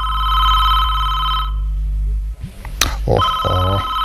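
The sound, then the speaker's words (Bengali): A telephone rings with a steady, high electronic tone that cuts off after about one and a half seconds, then resumes near the end, with short mixed noises in between. “আমার phone. Receive করো।”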